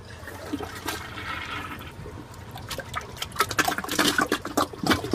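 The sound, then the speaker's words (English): A 1.28-gallon toilet flushes a bowl almost full of water balloons, with steady rushing, swirling water. Choppy gurgles and sputters grow louder toward the end. “Voila. Gone. Love that. Like, if it can handle that many water balloons, it can handle my giant burrito dookie, I think.”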